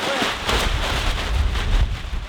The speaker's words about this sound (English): Look at this wind. Look at this. That's why my hair looks the way it does. It's the wind.